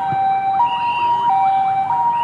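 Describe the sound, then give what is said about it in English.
An ambulance siren sounds at an unruly city intersection in Dhaka as it moves through traffic. A loud, continuous wavering siren tone fills the whole clip with no talk. “A Boy Scout, neckerchief in place, whistles to halt traffic at an unruly intersection. An ambulance is coming.”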